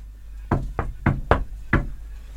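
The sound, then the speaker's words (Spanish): Knuckles rap on a black door five times in a quick, slightly uneven rhythm. The sharp knocks stand out over a low, steady hum. “Recorrieron el lugar, tocando y abriendo puertas. Todo iba bien hasta que Evelyn tocó una puerta color negro.”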